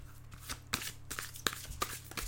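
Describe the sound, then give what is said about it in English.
Cards being shuffled, a deck of Cosmic Guidance oracle cards riffled and handled in quick, soft bursts of papery flutter with a few sharper snaps, faint throughout. “All right, so I'm just going to take out a Cosmic Guidance card.”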